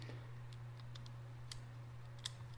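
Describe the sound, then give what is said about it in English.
Faint small clicks as a micro SD card drops into a Garmin 60CX GPS device, a few light ticks sitting over a steady low electrical hum. “Now I take my micro SD card out and it will drop right into my Garmin device,”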